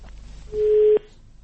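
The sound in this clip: Telephone call connecting on air: a single steady mid-pitched tone lasting about half a second, loud over a low hum.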